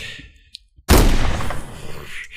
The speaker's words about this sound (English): Here, hold on. Let me try that again.